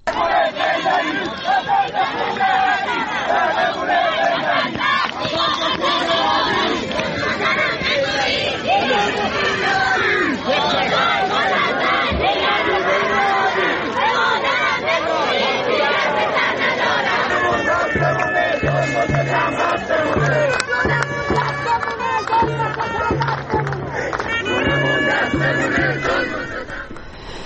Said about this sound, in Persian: و از این صدای مردم سمیروم بود در استان اصفهان.